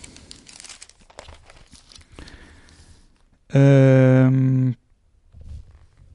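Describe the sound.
Pages of the newspaper Libero are turned, with a few crisp rustles and crinkles of paper over the first three seconds. A brief loud steady tone follows, then a last soft rustle.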